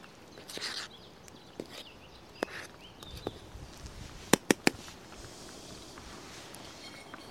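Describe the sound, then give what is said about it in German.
Crackling campfire: faint steady hiss broken by scattered sharp pops, with a quick cluster of three louder snaps near the middle. “Ah, endlich mal wieder am Feuer.”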